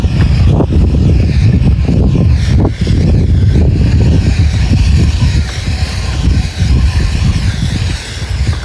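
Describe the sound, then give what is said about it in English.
Wind buffets the microphone outdoors on a chilly day: a loud, steady low rumble with irregular gusting surges that runs the whole length, with no voices. “There's a little bit of wind, as you can probably hear.”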